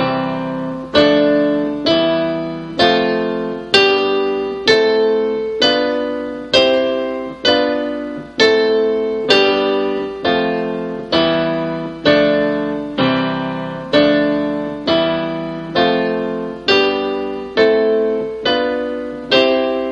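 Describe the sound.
Keyboard chords played with both hands, including a left-hand C-E-G chord under a right-hand note, struck again and again in a steady, even rhythm, each ringing and decaying before the next, with no talking.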